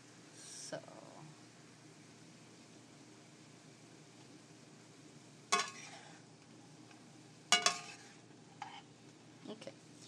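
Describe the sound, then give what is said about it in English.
Chow mein stir-frying in a pan: a faint, steady sizzle with a few sharp clatters of a utensil against the pan scattered through it. “So anyway, I'd like these cooked a little bit better, so I'm going to leave them. You could almost say this is a chow mein, is what I'm making.”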